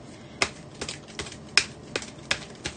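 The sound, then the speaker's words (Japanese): Oracle cards being shuffled by hand: seven crisp, faint card snaps at a steady, even rhythm, with no talk. “私もね、今カード切ってるんで”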